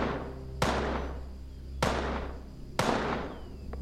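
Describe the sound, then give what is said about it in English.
Three gunshots from a gun, each a sharp bang with a long decaying tail, spaced roughly a second apart over a low steady hum. “Are you sure this thing fires straight? Don't blame it on the gun.”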